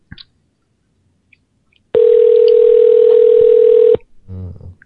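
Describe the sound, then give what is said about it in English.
A telephone line sounds a single steady electronic tone that holds one pitch for about two seconds and then cuts off abruptly. A few faint clicks come before it, and a brief muffled sound follows. “I really do like the part of the show where the phones ring.”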